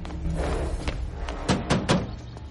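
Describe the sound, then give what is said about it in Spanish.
Knocking on the door of a military headquarters: several hard, dull knocks land in an irregular run, with the last few coming close together over a steady low background. “se apea del caballo y llama a la puerta.”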